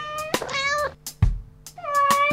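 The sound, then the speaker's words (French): A small cat on a sofa meows twice, drawn-out tonal cries separated by a short pause, with a faint low hum underneath. “J'ai un petit chat sur mon canapé. Mon petit chat se met à miauler.”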